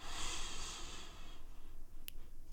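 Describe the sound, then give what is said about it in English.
A single soft inhale, a breathy hiss lasting about a second and a half, is taken during a guided calming exercise. Quieter low rustling follows it. “Breathe in.”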